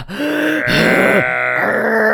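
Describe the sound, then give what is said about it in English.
A voice imitates heavy breathing left on a voicemail, with a few rough, groaning, voiced breaths in quick succession, loud and close. “And it just sounds like really heavy breathing”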